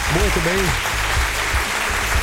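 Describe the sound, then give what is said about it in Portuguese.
Applause sound effect, a steady wash of clapping that lasts about two seconds, with a voice briefly heard over its start. “Palmas para ele”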